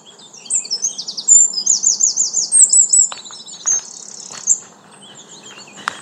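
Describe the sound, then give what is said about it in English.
Birds sing in a park under young oak trees at the end of April, with rapid high chirps and trills that are busy at first, then thin out to sparser calls and faint clicks over a soft steady background. “Here's some sounds from my park.”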